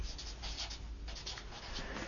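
Scratchy strokes of writing on a board come in a quick series of short bursts, alone and fairly quiet.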